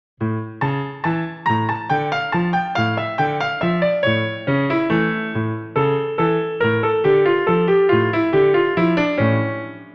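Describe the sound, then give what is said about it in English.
Solo Spanish guitar plays fandango falsetas in E dominant mode: a steady stream of many plucked notes in flowing melodic runs, ringing and bright, with no voices. “And some other falsetas of fandango in E3M dominant mode sound like this.”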